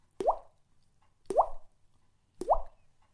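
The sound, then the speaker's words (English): A mouth imitates falling teardrops with three evenly spaced, wet plops. Each is a short, clear drip whose pitch quickly rises, with silence between them. “3 teardrops. That sounds like this. See if I can get them all in a row.”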